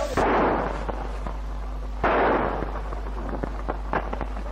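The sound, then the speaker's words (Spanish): Gunshots from a police officer's .45 pistol amid tear-gas unrest in the streets of Córdoba: two loud, sharp bangs about two seconds apart, each trailing off in a rolling echo, with faint clicks and pops between them. “Observamos a un policía que tira con una pistola 45.”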